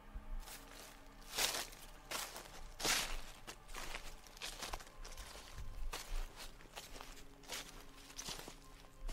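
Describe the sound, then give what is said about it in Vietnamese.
Footsteps rustle through grass in an uneven run of soft, crunchy steps. They are faint and heard alone, with no voices. “Lại có tiếng bước chân sột soạt ở trong bụi cỏ bên kia.”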